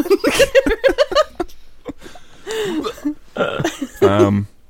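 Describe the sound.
A person clears their throat with a few rough, gravelly bursts, preceded by a run of quick chuckling pulses.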